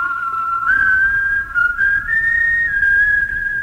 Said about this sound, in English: All right, a little whistling here. When I was a youngster, I used to whistle like this.